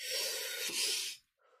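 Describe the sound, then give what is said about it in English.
A deep breath is drawn in as a loud, airy hiss lasting about a second, then cuts off sharply. A short, fainter breathy sound follows, and there is no speech. “Like, let's just sit there, breathe it in,”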